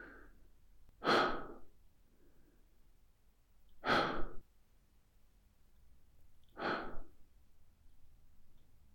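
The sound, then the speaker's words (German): Three slow, deep breaths in a calm breathing exercise, each a soft, airy rush of air lasting about half a second, evenly spaced a few seconds apart with quiet stillness between them. “Wenn du magst, atme ein paar Mal tief ein und langsam aus.”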